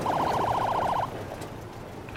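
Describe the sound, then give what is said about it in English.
An ambulance siren sounds as the ambulance drives up near an apartment building. It is a rapid, high warbling wail that cuts off after about a second, leaving a low vehicle rumble. “An unhoused woman looks up as the ambulance drives up.”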